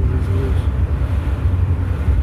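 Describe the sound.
An old Chrysler with leaf springs at the rear drives over a bumpy road, giving a continuous, heavy, low-pitched rumble of engine and road noise from inside the vehicle, with a faint hiss of wind above it.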